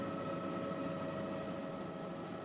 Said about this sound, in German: Wir fliegen weit hoch in den Himalaya. Vorbei am Mount Everest.